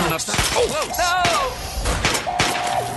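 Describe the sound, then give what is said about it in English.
Gunshots in a video game: several sharp bangs at irregular intervals, mixed with crashing impacts and ringing, warbling electronic tones. “Took 6 shots to take him down.”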